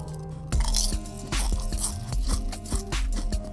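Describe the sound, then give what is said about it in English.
Loud crunching of potato chips: a series of sharp, crunchy bites with chewing in between, heard alone without talk. “That's just me with them tater chips. Let it rip, tater chip.”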